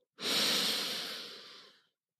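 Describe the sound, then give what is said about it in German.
A single deep, slow breath during a guided relaxation breathing exercise: a soft, airy rush lasting nearly two seconds that fades out gradually, with no talk over it. “Und jetzt nochmal, Schultern sind ganz locker und tief einatmen.”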